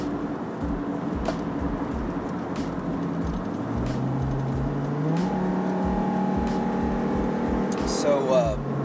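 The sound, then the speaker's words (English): A car drives on the road with a continuous engine hum and road noise, the engine pitch rising midway as it accelerates, while a voice talks over it. “Sorry, I'm driving right now, making sure I'm staying safe on the road while I'm talking to you guys.”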